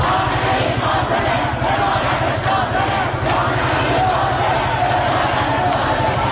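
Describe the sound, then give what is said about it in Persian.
Students chant slogans in rhythmic unison during a protest march in a university courtyard, slogans aimed at the leader of the Islamic Republic; the massed voices pulse steadily and loudly throughout. “هم در صحن این دانشگاه راهپیمایی کرده و شعار دادند و سرود همراه شو عزیز را با پلاکاردهای حاوی اسم ژینا یا همان مهسا امینی در دست داشتند.”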